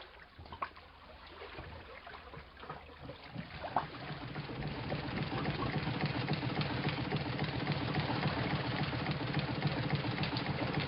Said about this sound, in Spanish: Estoy escribiendo esto a la luz que despide la caldera de la lancha de vapor.